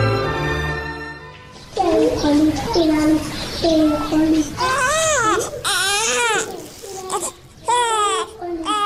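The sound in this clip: A hungry baby, its milk run out since morning, cries loudly in repeated wavering wails, each rising and falling in pitch, separated by brief gasping pauses.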